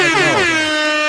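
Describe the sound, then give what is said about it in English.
Air horn sound effect blares in one loud, sustained blast lasting about a second, with no talk over it. “air horns for Jake LaRavia. Air horns.”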